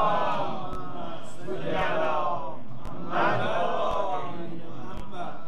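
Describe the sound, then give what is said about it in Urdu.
A crowd at a religious sermon gathering recites salawat in unison. The voices rise in a few loud, chanted waves with short gaps between them. “صلوات پڑھیں محمد و آل”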